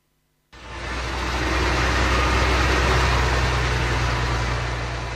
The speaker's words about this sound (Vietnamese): Tiếng mưa rơi hòa cùng tiếng máy xúc, máy ủi gầm vang giữa núi rừng